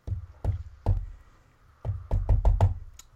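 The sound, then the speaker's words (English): A pen banging on a notebook makes sharp, hollow knocks: three spaced taps, a pause, then a quicker run of about five taps. “Is that someone at your door, or? No, that's me banging my pen on my notebook.”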